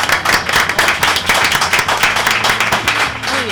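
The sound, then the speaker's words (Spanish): Audience applause at a launch event, dense and steady clapping from many hands that holds a constant loud level throughout without pause. “Muchas gracias por asistir a todos. De hecho, un aplauso para usted, ¿eh?”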